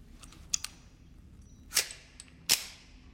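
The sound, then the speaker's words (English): Gunshot in a film scene as a man fires a bullet into another man's stomach: a couple of faint clicks, then two sharp, loud cracks with short decays and no talk. “Barnes steps forward and fires a bullet into Marcus's stomach.”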